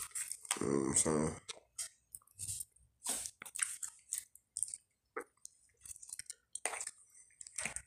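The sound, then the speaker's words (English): Wet smacking and chewing of garlic bread, many short clicks and squishes in an irregular rhythm, with a brief stretch of voice near the start. “The garlic bread. Excuse me for all the smacking, y'all, but it's good.”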